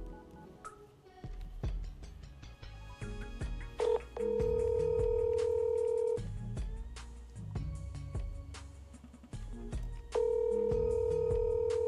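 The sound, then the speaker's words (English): Telephone dialing: a series of short keypad beeps and clicks, then long steady tones that hold for a couple of seconds, stop, and return near the end. “All right, I'm going to keep dialing. Let's see who we're going to call next.”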